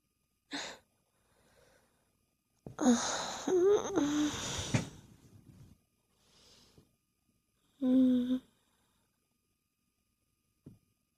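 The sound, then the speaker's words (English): A person breathing: several loud, wheezy breaths and sighs, some carrying a faint voiced tone, separated by stretches of near silence, with a few softer breaths between. “Love listening to you breathe.”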